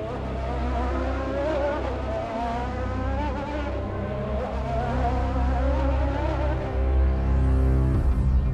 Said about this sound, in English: watching the other drivers speed around the racetrack